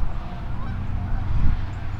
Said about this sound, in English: We got a bunch of Canada geese who have no idea what they want to do right now.